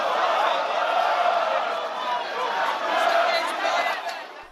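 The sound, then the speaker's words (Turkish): Thousands of football fans celebrate in the streets of Brazil, a dense, continuous crowd roar of shouting and chanting voices that swells and eases slightly but never drops out. “Yasağa rağmen binlerce futbol taraftarı sokaklarda maskesiz mesafesiz kutlama yaptı.”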